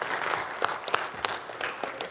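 An audience applauds a raffle winner at a gathering, with many hands clapping in a dense, steady patter that lasts about two seconds.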